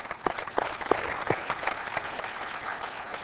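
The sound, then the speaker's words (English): A church audience applauds, with dense, even clapping and a few sharper claps standing out early on. The applause holds steady for about three seconds. “I just want to give him a round of applause”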